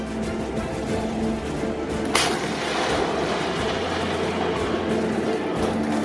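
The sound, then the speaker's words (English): Gunfire and artillery at a Malaysian Armed Forces firepower demonstration with tanks and helicopters at a military camp: a continuous heavy rumble, broken by one sharp, loud report. “Echoes of gunshots and bombs shook the ground as armed personnel showcased their strength, expertise, and target accuracy in front of spectators.”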